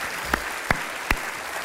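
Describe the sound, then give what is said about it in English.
An audience gives one more round of applause for children's ministry workers: a brief, fairly loud wash of many hands clapping, with a few sharper individual claps standing out. “So can we give them one more big round of applause?”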